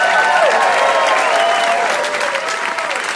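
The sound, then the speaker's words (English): A live audience applauds the guests at the close of a discussion show. The sustained clapping is loud and thick, easing only slightly toward the end. “And can we get one more hand here for all our guests, please?”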